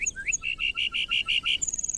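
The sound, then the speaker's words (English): Lark bunting song: a couple of opening whistled notes, then a steady run of repeated rich, clear notes, ending in a fast, high buzzy trill. “Why do so many species of birds choose the northern Great Plains to raise their young? Like the lark bunting,”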